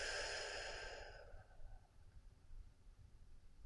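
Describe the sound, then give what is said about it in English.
A deep, breathy exhale releases a held breath during a guided breathing exercise. The long whoosh is loud at first, then fades over about a second into faint, low background rumble. “Take in an inhale. Release.”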